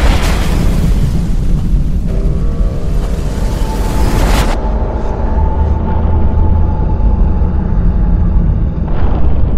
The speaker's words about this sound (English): At which point this launch vehicle explodes spectacularly on the launch pad.